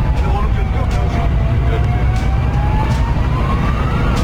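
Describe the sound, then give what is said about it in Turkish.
A fire engine siren wails on a road, its tone gliding slowly in pitch over loud, continuous traffic noise. “Sol şeritte ilerleyen otomobil siren ve ikaz lambalarına rağmen itfaiye aracına yol vermedi.”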